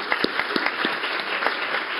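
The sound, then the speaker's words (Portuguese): Audience applause at a tribute during a ceremony: dense, steady clapping for about two seconds, with a few sharper individual claps standing out from the crowd. “E eu peço uma salva de palmas para vocês, porque elas merecem.”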